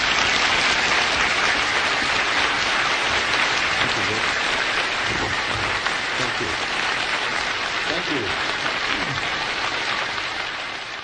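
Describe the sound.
Sustained applause from a church audience in Milwaukee welcoming a guest preacher to the service. The clapping is steady and dense for about eleven seconds, then tapers slightly at the end.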